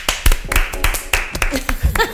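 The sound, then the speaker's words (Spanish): Handclapping as applause at the start of a show's season opener, several quick sharp claps in short irregular bursts mixed with excited voices speaking over them. “Un aplauso.”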